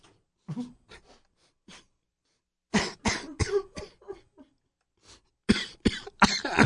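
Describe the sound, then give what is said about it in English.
A person coughs in a drawn-out fit they cannot stop: scattered softer coughs first, then a loud run of harsh, rapid coughs, a pause, and another burst of heavy coughing. “No, once I start coughing, I'm not finishing anytime soon.”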